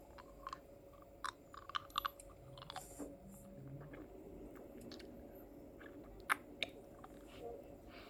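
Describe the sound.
Someone chews a bite of food to taste it: soft, wet squishing and crunching with irregular small clicks, faint and close throughout.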